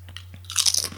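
Crunching of pizza-flavoured crisps being bitten and chewed: a few quiet crunches at first, then a denser, louder burst of brittle crackling toward the end, over a steady low hum.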